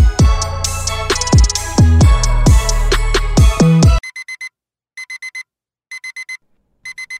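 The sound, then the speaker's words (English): An alarm clock goes off, loud ringing tones for about four seconds, then short clusters of rapid, high beeps repeating roughly once a second, with no talk. “So that's the alarm clock that you hear in the background.”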